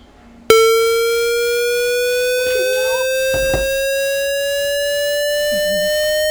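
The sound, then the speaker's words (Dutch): A synthesized square wave tone starts abruptly after a brief quiet and holds loud, bright and buzzy, its pitch gliding slowly upward as it sustains to the end. “Een blokgolf of een square wave. Oké. Okay. Ah ja, een square wave.”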